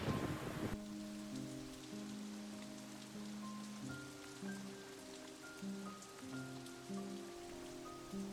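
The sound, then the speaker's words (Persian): Rain falls on an old tree in a small forest, a steady soft patter that runs throughout beneath a slow pattern of sustained melodic tones. “ابرها طاقت این خدازاری من و آسیب به این درخت کهنه را ندارند و بیرحمانه بر این تن رنجور و این جنگل کوچک میبارند”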